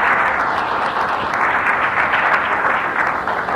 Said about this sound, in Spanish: Un aplauso para Abel.